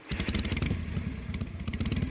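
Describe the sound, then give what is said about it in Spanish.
A motorcycle engine revs with a low, steady throbbing pulse that swells and eases slightly in loudness. “Un poquito de gas con nuestra moto, nos ponemos los cascos y partimos.”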